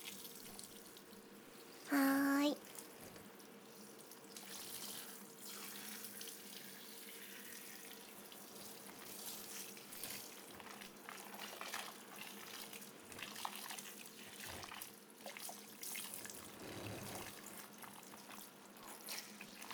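Warm water runs from a tap while hair is being washed, a steady, continuous flow with one brief louder splash near the start and no voices.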